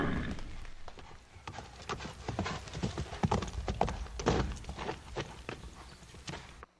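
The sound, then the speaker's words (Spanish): Horses gallop away with many quick, irregular hoofbeats thudding and clattering, fairly loud and continuous, the rhythm uneven as several hooves overlap. “Y se fueron a todo galope”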